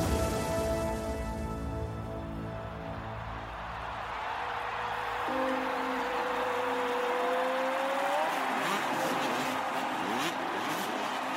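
A motocross motorcycle accelerates on a practice track. The engine makes a steady droning whine over a dense wash of noise, then holds a high tone that climbs in pitch before cutting off.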